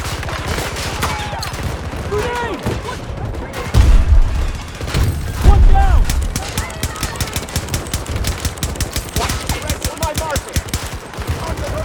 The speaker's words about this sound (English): Dude, the ammo goes real fast. This MP9 is sick.